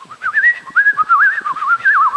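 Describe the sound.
A person whistles in imitation of a singing bird, producing high, warbling trills and quick pitch wobbles in several short phrases separated by brief breaths, loud and alone without speech.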